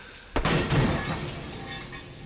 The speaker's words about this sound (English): What then? Obey the scriptures. Smash them.